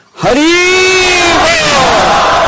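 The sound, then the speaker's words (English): A crowd of devotees shouts "Haribol" together as a welcome: one loud, sustained chant of many voices in unison that swells at the start and holds steady to the end. “No, I think actually you learned this Haribol, Haribol, Haribol from the Chaupati devotees. But I didn't see them do like that. That was like little kids. Let's have a serious welcome.”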